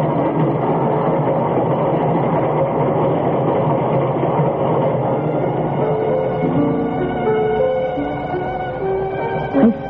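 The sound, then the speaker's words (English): A train at a station platform gives off a steady, loud mechanical rumble with sustained humming tones, which shift slightly in the later seconds before a short, sharp burst near the end. “There's your train.”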